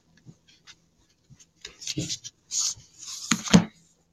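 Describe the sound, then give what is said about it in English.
A deck of cards is cut in half and handled, heard as a few soft clicks and taps, then brisk papery rustles and flicks. The sounds are sparse and quiet, with no talking. “we're going to cut these cards in half.”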